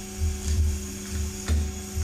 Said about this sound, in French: Ça c'est l'allumage des amplis au studio de mastering. Ça c'est l'aspirateur qui est mis en route.